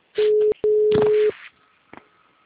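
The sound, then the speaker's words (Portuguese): A telephone ringing tone, heard as a steady mid-pitched tone in two bursts, the first short and the second longer, followed by faint residual clicks. “tá tocando ao mesmo tempo o meu aqui, o seu aí que você tá ligando.”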